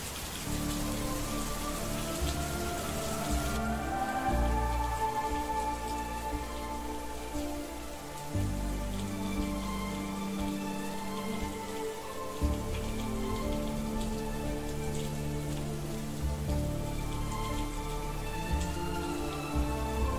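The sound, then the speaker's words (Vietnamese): Night rain in Dalat: a steady, soft hiss of rain falling on surfaces, with a slow, mournful melody playing alongside the whole time. “kết hợp với cơn mưa đêm của Đà Lạt làm cho bầu không khí trở nên thê lương.”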